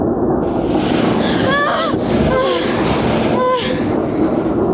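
An amusement ride train rattles steadily through a dark ride with ghosts, dragons and smoking volcanoes. The dense, loud rumble is broken by a few thin, high metallic squeals from the wheels.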